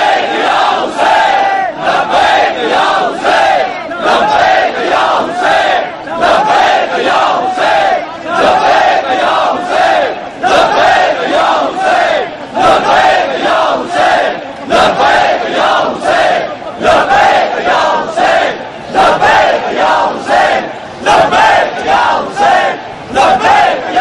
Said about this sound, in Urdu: برادران نعرہ لگائیں گے، لبائی کا یا حسین۔